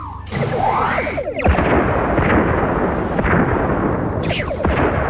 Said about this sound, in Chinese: 向所有敌舰开火，每艘一枚光子雷就够了，别浪费弹药。 已经锁定所有目标，开火。